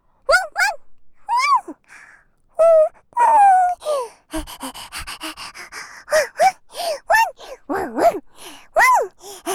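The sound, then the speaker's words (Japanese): A girl's voice imitates a dog barking in many short, high, yelping bursts with breathy gasps and pauses in between, varying in pitch and loudness. “妹のワンちゃんモノマネで喜びすぎ。”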